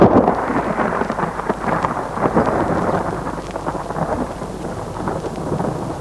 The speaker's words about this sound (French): Tard dans la nuit, il est réveillé par un violent orage.